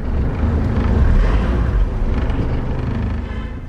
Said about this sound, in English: We are driving east from Kigali into Bugesera, one of Rwanda's warmer and drier districts.